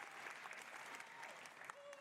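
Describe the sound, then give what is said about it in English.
Audience applause at a video game presentation, a dense, even patter of many hands clapping together at a steady moderate level throughout, with faint voices mixed in. “It's all Ubisoft people clapping.”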